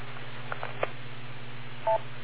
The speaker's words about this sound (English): Wait for the beep.